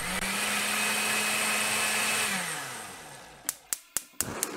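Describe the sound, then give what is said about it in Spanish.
Blender purees arracacha soup with a steady, loud motor whine and low tonal hum; the motor slows and winds down, then five sharp clicks or taps follow in quick succession. “Retire del fuego, deje enfriar un poco y licúe todo junto hasta que todo esté disuelto.”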